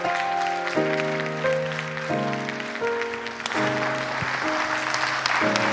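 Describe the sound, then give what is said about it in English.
Congregation standing to applaud and welcome a pastor at a church service, with a swell of clapping that grows fuller partway through, over sustained keyboard chords that shift several times. “Would you stand to your feet? Would you put your hands together and welcome Pastor Joe Bowman as he comes to bring the message today?”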